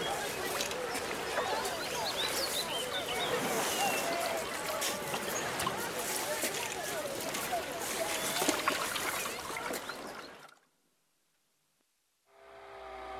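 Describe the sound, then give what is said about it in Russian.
Motorboat travelling on a river: a dense, steady rush of engine and water noise runs for about ten seconds, then cuts off abruptly into near silence before a faint sound returns at the end. “На катере по реке плывут ребята.”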